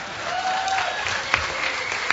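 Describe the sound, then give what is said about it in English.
An audience at a hacker convention applauds in a steady, dense wash of clapping, heard alone with no talk. A couple of sharper individual claps stand out near the end. “A round of applause for the guy who decided to come out of the closet.”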